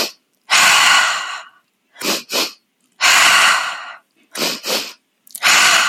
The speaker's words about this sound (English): It's a double count inhale through the nose. So you're going to breathe in twice fast at your own pace, double inhale, and then a sigh breath out through the mouth.